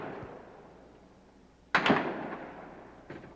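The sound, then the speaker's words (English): Piece of a tower falling during a gun battle, a sudden loud crash in the middle that decays into a rumbling tail, followed later by a fainter, sharp burst. “Piece of the tower falling now. And the battle goes on.”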